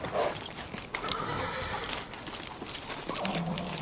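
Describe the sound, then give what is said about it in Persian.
A horse neighs and its hooves clop irregularly as a rider dismounts, set within a dense, noisy background. “نغمه از اسب میاد پایین.”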